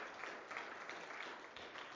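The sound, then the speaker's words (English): Applause from a church audience honoring fathers on Father's Day: dense, even clapping, faint and continuous from start to finish. “They absolutely deserve that round of applause. No question.”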